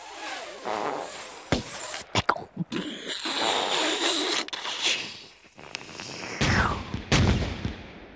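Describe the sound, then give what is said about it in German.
A volley of gunfire from the undergrowth, staged for a radio drama: several sharp, loud shots burst at irregular intervals over a rough, rumbling background noise. “Zur selben Zeit, fast sofort, dröhnt eine Salve aus dem Unterholz.”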